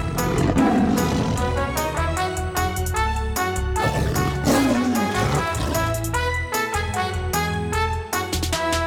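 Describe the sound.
Tigers let out two deep, drawn-out growling roars, one near the start and one midway, set under a loud, continuous music track with a steady beat.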